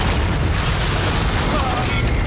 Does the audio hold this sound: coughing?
no